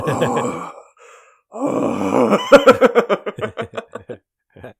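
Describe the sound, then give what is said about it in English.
A human voice imitates a creature's heavy breathing: drawn-out groaning, voiced exhalations, then a run of quick rhythmic breathy pulses that fade away. “He breathes so heavily. He goes...”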